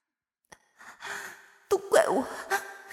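Laboured, rapid breathing of a child in distress, a few breathy gasps and sighs coming in quick, uneven bursts, some voiced and strained, growing louder toward the end.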